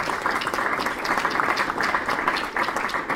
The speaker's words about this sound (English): And yeah, I think that deserves some applause because